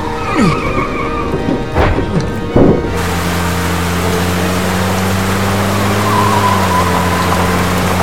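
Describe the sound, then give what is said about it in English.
A van's engine drives along as a steady, low, humming drone. A few brief rough noises come before it at the start. “Following the sound of the van!”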